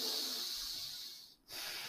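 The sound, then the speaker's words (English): A deep intake of breath, a steady, breathy hiss held for over a second that breaks off briefly and then resumes, with no talk over it. “Did you hear that deep intake of breath?”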